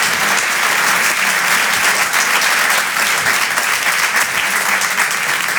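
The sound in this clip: Sustained applause from an audience welcoming a comedian onto the stage at a stand-up show: dense, even clapping that holds at a steady loud level throughout, with no speech over it.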